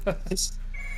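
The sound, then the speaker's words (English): A telephone going off in a studio, a brief, bright, high electronic ring that follows a short burst of speech and then trails into a faint, steady tone. “That is the phone. Even in the studio, the phone goes off.”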